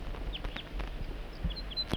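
A wild bird gives a scattered series of short, high chirps, faint and thin above a low, rumbling background noise.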